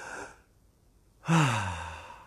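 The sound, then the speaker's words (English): A deep breath: a soft airy intake fades into a short pause, then a loud, voiced sighing exhale that slowly trails off. “Take a deep breath with me right now.”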